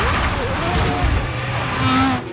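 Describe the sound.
A racing car runs off the track onto the grass during a race, its engine note wavering and gritty with a voice heard over it.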